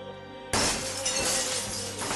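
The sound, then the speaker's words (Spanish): Window glass shattering inward as a creature crashes through a large central window: a sudden loud crash bursts in after a quiet start, followed by a sustained, dense spray of breaking shards and debris. “Rompiendo los vidrios hacia adentro.”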